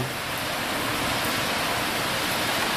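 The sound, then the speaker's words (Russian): Light rain falling as a steady, even hiss of fine drops, continuous and fairly loud throughout with no voices. “дождик имеется. Не то чтобы там, знаете, как это говорят, что разверзлись хляби небесные.”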